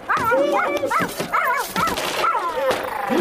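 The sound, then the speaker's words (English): A small dog barks in a quick run of sharp, high-pitched yaps and yips that follow closely one after another. “Please try to control your dog.”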